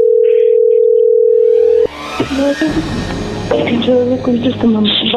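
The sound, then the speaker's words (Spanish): A telephone dial tone plays while someone places a call. The single flat, continuous tone lasts about two seconds, then cuts off abruptly, and voices talk afterward. “Le estamos marcando otra vez”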